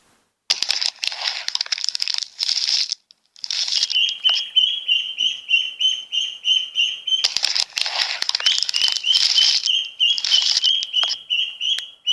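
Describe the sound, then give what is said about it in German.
Yellow chicks hatching from eggs chirp in rapid, repeated high peeps, mixed with scratchy crackling bursts and a brief pause near the start, with no voices. “Als es soweit war, schlüpften 6 wunderschöne gelbe Küken.”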